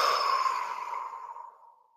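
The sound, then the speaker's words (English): A long, breathy exhale empties the lungs during a guided breathing exercise. It is a steady, airy rush of breath that gradually fades over about two seconds, with no talk. “So take a deep breath in, big inhale, and then big exhale.”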